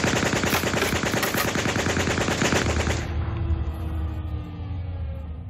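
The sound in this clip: Rapid automatic gunfire from a film scene, a loud continuous burst of shots for about three seconds that then cuts to a quieter low rumble with a faint lingering tone.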